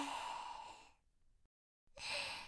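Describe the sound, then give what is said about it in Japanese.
Deep breathing in a guided relaxation exercise: a long, airy, sigh-like breath fades out, a short silence follows, then the next breath begins, soft and close. “まずは一緒に深呼吸しようか。吸って吐いて、”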